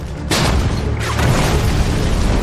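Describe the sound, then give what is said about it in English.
Enemy artillery shells explode outside a building under attack during a battle. A heavy boom hits near the start and a second blast follows about a second later, over a dense, sustained rumble. “Enemy shells drop outside. And the machine guns burst against the walls and windows.”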